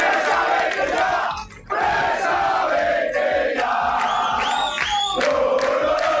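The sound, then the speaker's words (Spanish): Football supporters gathered at their stadium in Vallecas chant and shout in protest, a loud, sustained crowd roar that dips briefly near the start before surging back and holding steady to the end. “Las protestas de la afición del Rayo, concentrada ayer en el estadio”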